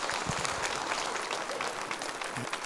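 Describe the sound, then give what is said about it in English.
Audience applause welcoming the next speaker onto the stage: fairly faint, continuous clapping that holds steady from start to end without a clear peak. “Y'all give the next few minutes, put your hands together, and let's welcome Aaron Feigert.”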